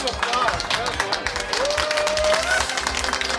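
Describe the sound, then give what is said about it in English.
Round of applause for a fixed website build, steady clapping and cheering from a group with voices talking over it, lively and fairly loud from start to finish. “Hey, round of applause. Well done.”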